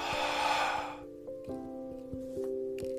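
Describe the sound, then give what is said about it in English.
A deep, breathy exhale follows a guided breath-in. The airy rush lasts about a second, then fades into soft, steady sustained tones. “Deep breath in and release.”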